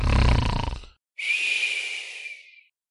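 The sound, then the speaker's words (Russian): One snore from a woman falling asleep: a rattling, rumbling inhale, then after a short pause a long whistling exhale with a thin whine that fades out. “Раскатисто вначале, как гром, а в конце выдох с жалобными подвываниями. Все, уснула.”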